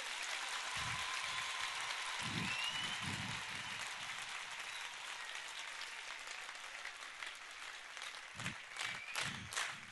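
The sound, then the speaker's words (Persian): An audience clapping: soft, sustained applause forming a steady wash of claps, growing more scattered toward the end. “یا دست نزن یا قشنگ بزن”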